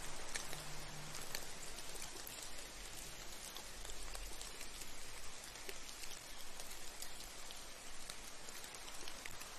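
Rain falling in a steady, dense hiss with fine patter of drops, soft and unchanging throughout, with no voices.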